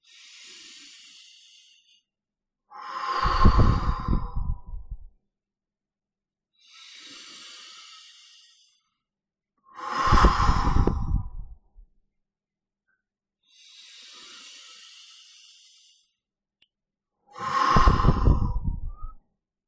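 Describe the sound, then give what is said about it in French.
A person takes three slow, deep breaths. Each is a soft, airy inhale followed by a louder, fuller exhale, with long, even pauses between them and no talking. “Et maintenant, à votre rythme, sans vous presser, vous allez faire 3 respirations profondes.”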